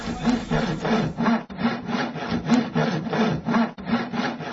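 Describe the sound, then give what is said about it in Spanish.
Sawing through padlocks, with quick back-and-forth rasping strokes in an even rhythm, loud and gritty, repeating many times with two brief pauses and no voices. “El más chiquito empezó a cortarles esos candados o no sé qué es lo que está cortando ese chiquito empezó a cortar y cortar.”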